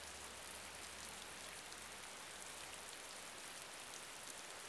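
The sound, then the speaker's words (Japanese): Steady rain falling, a continuous, even hiss of countless drops that holds at a constant level throughout, with no voices. “母さんは好きだけどな、雨。 お母さん？ 空が歌ってるみたいで好きだって。”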